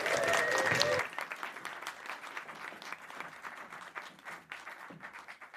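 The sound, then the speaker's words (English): Audience applause greets a speaker at a Science Week event, steady dense clapping that swells at the start and then holds at a moderate level for several seconds. “And doing it with style, please make some noise for Marissa Parrott.”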